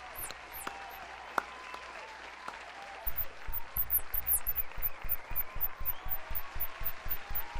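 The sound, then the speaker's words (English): Rhythmic applause in steady unison beats, rising suddenly after a quieter opening and then holding an even, repeating pulse of claps to the end. “Applause for yourself. Applause for yourself.”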